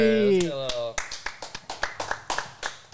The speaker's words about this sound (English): They're roaring for him.